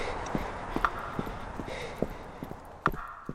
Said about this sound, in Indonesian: Kai mendengar langkah kaki menghampiri